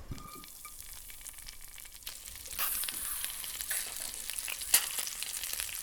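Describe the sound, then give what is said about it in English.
Frozen mealworms fry with a little salt in oil in a pan on a stove burner. A faint, steady sizzle grows louder and denser partway through, with scattered crackles and one sharp pop. “Okay, they're curling in the pan as they fry. No idea how long to fry them for. Oh, they're popping.”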